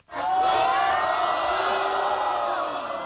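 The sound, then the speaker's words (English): A crowd cheers and whoops for the new world pool champion in the TNT pool hall in Xi'an, a loud, sustained roar of voices that begins abruptly and holds throughout. “Well, hopefully the sound tells a bit of a story. I mean, he got an absolute rock star welcome when he walked into the TNT pool hall here in Xi'an.”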